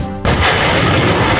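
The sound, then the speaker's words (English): Launch of a truck-mounted HIMARS rocket system fired by US Marines in training near the foothills of Mount Fuji, Japan: one sudden, loud blast breaking into a sustained roaring rush that lasts to the end. “That is the sound of U.S. Marines practicing firing a mobile rocket system days ago near the foothills of Mount Fuji in Japan. The high-mobility artillery rocket system, which is mounted on a military truck,”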